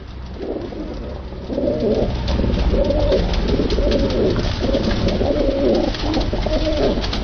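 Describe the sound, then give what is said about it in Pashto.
Pigeons coo at a bird market in Kabul where pigeons and other birds are sold, many soft, low, repeated coos over a constant dense background hum. “کابل کې د کافوري شکوڅه هغه ځای دی چې هلته له کوترو سره نور مارغان هم خرڅیږي”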